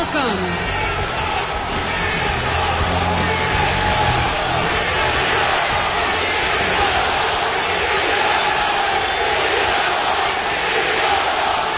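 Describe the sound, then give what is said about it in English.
An audience cheers and yells at a live show, a loud, sustained roar of crowd voices that holds steady throughout. “Like, why do these people cheer for quitters?”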